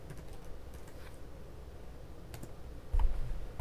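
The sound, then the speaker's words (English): Soft typing on a computer keyboard, with scattered quiet key clicks and a heavier low knock near the end. “If only your computer would type.”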